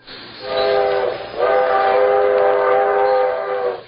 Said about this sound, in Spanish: Ya se va el tren.